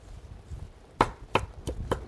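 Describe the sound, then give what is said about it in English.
Fresh basil is rough chopped with a knife on a board: four sharp, distinct chops in a quick, slightly uneven rhythm, preceded by softer, faint knocks. “So this basil plant's been growing for a while, and it really is great. I'm just going to chop a little bit, rough chop here.”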